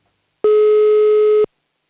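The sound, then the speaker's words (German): A telephone line tone sounds as a call is placed: one clean, steady mid-pitched beep lasting about a second, loud and alone, with silence before and after. “Das heißt, es wird wieder richtig Zeit für das nächste Telefonat. Und wir rufen in Oberösterreich an.”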